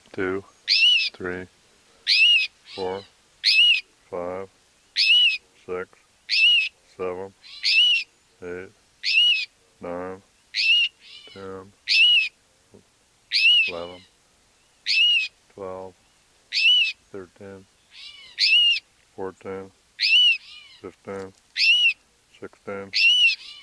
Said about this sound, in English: Here are cries and alarm notes of two rufous-sided towhees, and probably near their nest. This is the female.